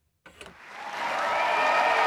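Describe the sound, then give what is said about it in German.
Audience applause follows the premiere of John Neumeier's ballet Epilog, which opened the Hamburg Ballet Days. Clapping starts abruptly after a brief silence and swells quickly into a dense, steady ovation. “Es war eine beeindruckende Inszenierung und man hat ja gemerkt, den minutenlang gestehenden Applaus danach, wie sehr Hamburg und John Neumeier zusammengehören.”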